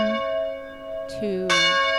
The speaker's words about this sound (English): She also knows, and would be confirmed in this, that the bell tower still rings on the hour every hour. Now that it is the 4 o'clock hour, you hear the bell toll